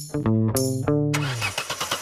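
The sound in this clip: A car engine struggles to start in the cold, making repeated loud cranking bursts with a strained, whining tone. A noisier, rougher rumble follows the cranking.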